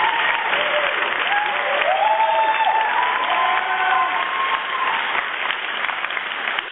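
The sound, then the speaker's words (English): Applause from an audience, a steady, dense patter of many clapping hands sustained for about seven seconds at an even loudness, with no break. “some applause, amen, because he called in.”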